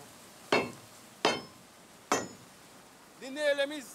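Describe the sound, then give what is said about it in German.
Three sharp metallic blows as a crowbar, used as a hammer, drives loose nails back into a rail on a bridge where the rails are nailed to sleepers. Each strike rings briefly, evenly spaced, and then a voice speaks. “Die Nägel sind lose. Ich schlage sie wieder ein.”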